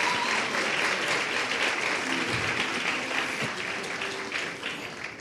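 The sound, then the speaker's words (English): A church audience gives congratulatory applause, a thick, even wash of many clapping hands that carries steadily and eases slightly toward the end. “All right, give it up for them again. Congratulations.”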